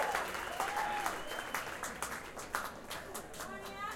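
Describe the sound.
A live concert audience at Slim's applauding: steady, fairly faint clapping from many hands with a few cheers, sustained throughout without a break.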